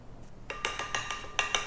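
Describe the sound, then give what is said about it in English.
A spoon clinks against a bowl while salt is stirred into chili oil, giving a quick run of light, faint metallic taps in an uneven rhythm, with no voices. “So start off with adding like half a teaspoon of salt. Give that a stir.”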